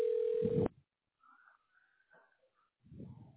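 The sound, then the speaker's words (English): A telephone tone sounds as a call is dialed to a tax specialist: one steady, fairly loud beep lasting about half a second, followed by faint, scattered low sounds. “We're dialing the tax specialist right now.”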